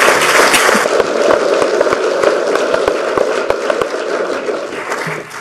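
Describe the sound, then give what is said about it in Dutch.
Applause for a newly sworn-in council committee member: dense, steady clapping from many hands fills the whole stretch, easing slightly in level toward the end. “Er mag ook geklapt worden voor de heer Schrijver.”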